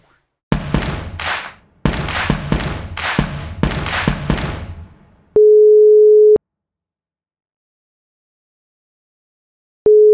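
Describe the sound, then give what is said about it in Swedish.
A telephone ringback tone plays while calling someone: a steady mid-pitched beep lasts about a second, then a long silence, then the tone starts again. Before it comes a run of loud, rough crackling bursts. “Om vi lyckas, ska vi testa och ringa upp honom?”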